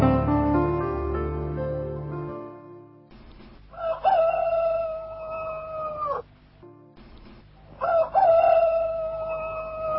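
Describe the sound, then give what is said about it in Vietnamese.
Two loud rooster crows ring out at dawn in hamlets along a rural road to the Cần Giuộc market. Each is a long, sustained, strongly harmonic call, and they follow a few seconds of low tonal sound. “Trời gần sáng, trong mấy xóm ở dọc theo khúc lộ từ cầu Mồng Gà lên chợ Cần Giuộc, gà gáy vang rân tiếp nhau kêu nông phu thức dậy mà đi ra ruộng”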